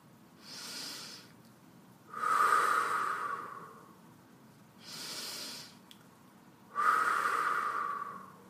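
Slow, deep breathing paced for a meditation exercise: two full cycles, each a short airy inhale followed by a longer, louder, breathy exhale, with quiet pauses between and no talking.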